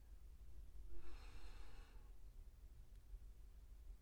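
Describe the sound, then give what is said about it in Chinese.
A single deep breath drawn in during a guided breathing exercise: one soft, airy inhalation lasting about a second. It is faint and alone, with no talk. “那再来一次吧。吸气，”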